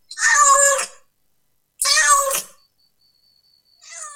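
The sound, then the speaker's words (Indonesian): A cat meows loudly twice, each call long and drawn out with a pause between, and a third meow begins just as the sound ends. “Kucing. Kucing. Cat. Cat.”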